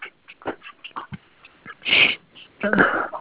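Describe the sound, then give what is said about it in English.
Sneezing breaks into a dictated medical exam note: two sharp, loud, breathy bursts in close succession follow a few softer sniffing or speech-like sounds. “excuse me, sneezing here.”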